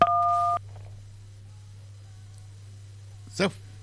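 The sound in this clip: A telephone line signal after a dropped call: one steady two-pitch electronic beep lasting about half a second, then a low constant line hum, with a brief noisy burst near the end.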